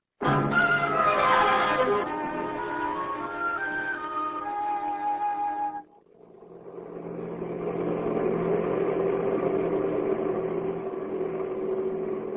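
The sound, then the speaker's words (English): Car engine while driving, a steady droning hum with tonal whine layered over it in the first half, briefly dropping away near the middle before swelling back to a constant mid-pitched rumble. “Oh, go to sleep, will you? I'm driving now.”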